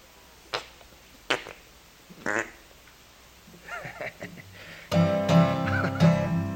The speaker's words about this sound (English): Armpit farts are a lot of fun. They sound so authentic, yes they do.